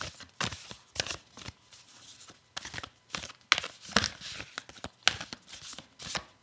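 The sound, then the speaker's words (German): Shuffling of an Espresso Chill card deck: a series of short, crisp riffling and papery crackling bursts that come in uneven clusters, fairly quiet, with no voices. “Ich glaube, Espresso Chill Kartenset oder irgendwie sowas. Genau, und ich würde sie jetzt einmal mischen.”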